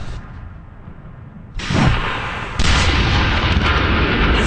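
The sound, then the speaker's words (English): Artillery fire during a military war-scenario exercise above a wide valley: heavy booms break in abruptly, then give way to a continuous dense rumble of firing that stays loud to the end. “You can hear snipers, there's artillery, there's a huge valley in front of me”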